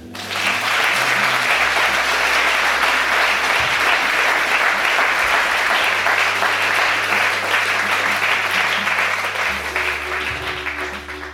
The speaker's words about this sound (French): Ok On acclame Jésus.